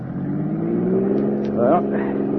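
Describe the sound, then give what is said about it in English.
A car engine accelerates with a steady, gradually building hum, and a voice is briefly heard over it partway through. “Go on, give it the gas.”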